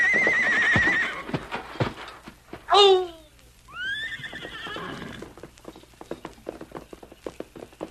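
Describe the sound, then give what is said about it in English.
A pony neighs and gallops, with loud high whinnies rising and falling midway over a steady, rapid patter of hoofbeats that continues throughout. “Get up, pony. Cover the ground, boy.”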